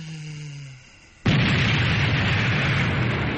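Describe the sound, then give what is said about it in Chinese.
Explosion of a landmine hidden inside a watermelon: a sudden, loud blast that cuts in after a quieter tonal hum, then a dense, sustained roaring rumble that holds steady to the end. “轰然爆炸，一团火球升上天空。”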